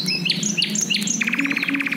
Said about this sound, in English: And then suddenly he heard the song of nightingales,